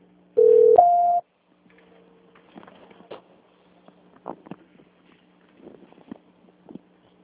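A telephone tone during a bank call transfer: one loud, steady tone about a second long that steps up in pitch partway through, followed by faint scattered clicks and line noise.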